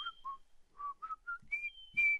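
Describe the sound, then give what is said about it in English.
A person whistles an imitation of the scaly-breasted wren's song, a slow series of faint, pure-tone notes. Several steady lower notes are followed by a few clearly higher ones at the end. “Its haunting and unforgettable song is a slow series of pure-tone whistles. So there you have it, the scaly-breasted wren.”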